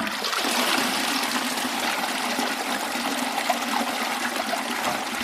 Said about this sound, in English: So Harrington's toilet was just a nice little flush that came from a tank of water above the toilet. It would wash everything away